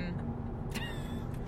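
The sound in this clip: A loud car passes on the road, heard from inside a moving vehicle. Its brief roar swells over the steady low rumble of road and engine noise.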